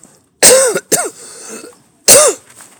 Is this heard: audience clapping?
no